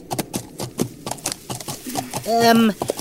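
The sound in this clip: Clip-clop of horse hooves as a rider moves ahead, steady rhythmic hoofbeats running beneath voices that speak throughout.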